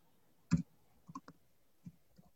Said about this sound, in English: Let me see if I can talk and type too.